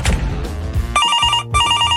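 A telephone bell rings in two bright, sustained bursts separated by a short gap, loud and clear over a noisy, rumbling lead-in.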